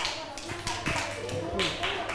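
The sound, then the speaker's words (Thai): Students in a classroom applaud a group after it shows its work. A scatter of uneven claps and taps comes under voices speaking over them. “ปรบมือให้กับกลุ่มที่4ด้วยค่ะ”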